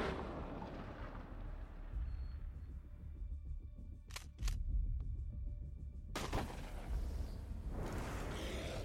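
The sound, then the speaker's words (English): A Dragon's Breath incendiary shotgun round fires blasts of flame: a few sharp, sudden bangs cut through a steady, rushing background noise. “What the hell was that? That was Dragon's Breath. It's a type of round that shoots a huge blast of fire.”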